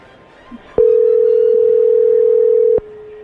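A telephone tone sounds while a call is being dialed: one loud, steady, single-pitched tone lasts about two seconds and is cut off cleanly, with a sharp click at its start and another at its end.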